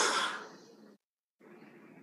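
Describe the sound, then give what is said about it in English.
Breathing in through the nose and out through the mouth during a guided relaxation exercise: a loud, airy breath fades away, a short silence follows, then a softer, steadier breath. “take all of that into your nose. And let it out through your mouth. In through your nose.”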